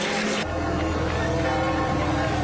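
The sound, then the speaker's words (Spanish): Church bells pealing across Paris to welcome the pope's arrival at Notre Dame cathedral, a dense, continuous wash of overlapping ringing tones that stays loud and steady throughout. “La llegada del pontífice también estuvo marcada por el repicar de las campanas.”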